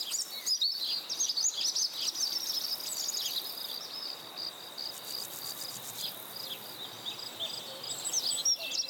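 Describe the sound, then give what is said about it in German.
Forest ambience with a constant bed of high insect chirping and scattered bird calls and tweets over a faint, steady background, with no voices. “Sie machen zusammen Aufnahmen mitten in der wunderschönen Natur. Mitten im Wald mit all den Geräuschen.”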